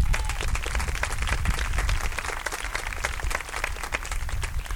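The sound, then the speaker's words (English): Audience applause for performers on a stage: dense, steady clapping from a crowd that stays evenly loud for the whole stretch, with many overlapping claps and no break. “Give them another hand.”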